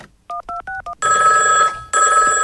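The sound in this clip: Telephone tones for a prank call: four short, clipped dial tones, then two long, loud electronic rings separated by a brief gap.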